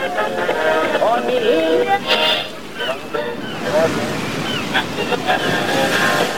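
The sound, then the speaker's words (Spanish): Waves and wind rush steadily around a raft being rowed at sea. The wash of water and wind noise stays constant beneath male voices talking throughout. “Vamos, brother, sigue remando, brother. Vamos con buen ritmo. Déjame sentir el viento de la libertad en el rostro,”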